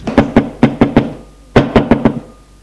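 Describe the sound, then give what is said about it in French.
Knocking on a mother's bedroom door: two quick bursts of five sharp raps each, separated by a short pause, loud and clear with no voices. “Frappe à la chambre de la mère d'Anne.”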